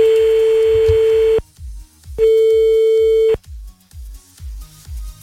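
Telephone ringback as a call goes unanswered: two long, steady electronic tones separated by a short silence, followed by a run of quick, low, evenly spaced pulses.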